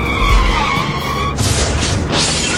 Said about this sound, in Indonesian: Tuh kan sudah diperingati tadi, tetap saja menerobos. Akhirnya kan kecelakaan.